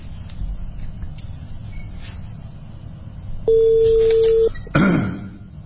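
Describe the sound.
Outgoing telephone call: one steady, mid-pitched electronic tone lasting about a second sounds over low background murmur, followed shortly by a brief rough burst of noise.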